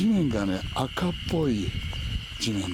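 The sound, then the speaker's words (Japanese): Cicadas sing in a fresh green forest on a mountain trail climbing toward a ridge. Their steady high buzz runs under a person talking. “セミの声を聞きながら森の中を、”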